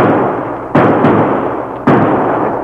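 Gunshots fired by a marshal at a fleeing masked rider: a few sharp, loud cracks break out of a steady rushing background noise.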